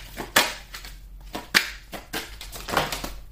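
Tarot cards being shuffled and drawn: irregular papery rustles and snaps, with a few sharper slaps standing out among softer brushing sounds.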